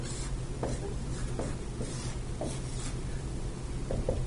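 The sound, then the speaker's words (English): Pen scratching on a surface while a small diagram is drawn, with a few irregular short strokes over a steady low hum. “So if we draw a little diagram here,”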